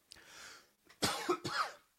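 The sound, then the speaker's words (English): A faint cough with no talk around it: a soft, breathy first burst, then two sharper hacks close together. “And I'm going to have to edit out that cough.”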